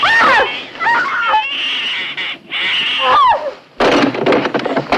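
A cat-attack sound effect: several harsh, high screeching yowls with sweeping pitch, split by short gaps and ending in a noisier, rougher burst.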